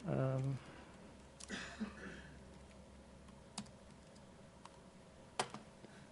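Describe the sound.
Computer keyboard typing during code editing to fix library references: sparse, faint key clicks spaced a few at a time, with a voice heard briefly at the start.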